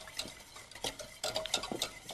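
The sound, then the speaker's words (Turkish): A thickening mixture is stirred in a pot after a second glass of liquid is added: faint, irregular scraping and light clicks of a utensil against the pot, soft and uneven in rhythm. “Hemen karıştırıyorum.”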